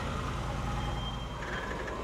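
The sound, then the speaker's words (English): A truck loaded with junk arrives: a steady, quiet, low engine rumble, with a faint high tone appearing toward the end. “Hey, here's the truck. Oh, this is loaded with junk.”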